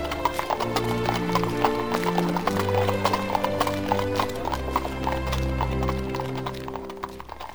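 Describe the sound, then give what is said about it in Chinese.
A horse pulling a carriage clip-clops in a brisk, steady rhythm of hooves, with a continuous low rumble underneath. “上了马车没多久。市场、教堂便逐渐消失在他们后面。”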